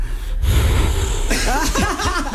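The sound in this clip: A voice demonstrates breathing during intimacy: a sharp gasp, then a run of breathy, rising-and-falling panting sighs with a moaning tone, fairly loud and rhythmic, with no words.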